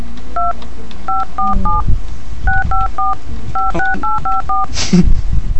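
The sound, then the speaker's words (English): Telephone keypad dialing tones, played as a tone break, beep in quick irregular bursts of roughly a dozen short dual-pitch notes, followed by a brief sliding tone near the end. “You enjoyed the tone break? I did not hear the tone break. Interesting. Oh, the callers can't hear it. But our listeners most certainly can.”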